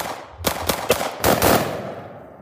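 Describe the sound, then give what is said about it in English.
A single pistol shot cracks out, then two musket shots, then a ragged roll of massed musket fire. Each blast is sharp and loud with a decaying tail. “A pistol is shot, then 2 muskets fire, and then a roll of musketry.”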